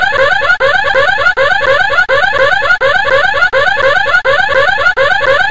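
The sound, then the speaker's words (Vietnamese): An alarm rings out in a room as a safe is opened. It is a loud, warbling pattern that repeats in quick cycles of under a second, each separated by a brief break, and carries on without pause. “Đúng lúc đó, tiếng chuông báo động vang lên. Và đó là thứ âm thanh to nhất mà Tracy từng nghe thấy.”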